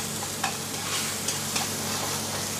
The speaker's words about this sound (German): Und das rösten wir ganz kurz an